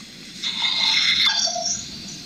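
A small dog reacts to a doorbell with a single high-pitched, drawn-out whine lasting about a second, over quiet background noise.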